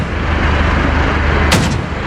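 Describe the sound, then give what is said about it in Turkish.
A pump-action shotgun is fired during an armed clash between two groups, captured on security cameras. A loud, harsh, distorted roar fills the whole clip, with one sharper crack standing out near the end. “Arka koltuğundan aldığı pompalı tüfekle terör estirdi.”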